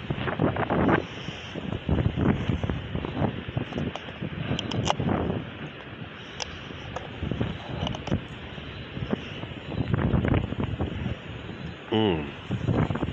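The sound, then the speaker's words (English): Wind buffets the microphone outdoors near the beach at Virginia Beach, a steady, loud low roar and rumble that surges and eases throughout. “I guess this wind is going to be horrible on the podcast, but we're just going to have to deal with it, I guess.”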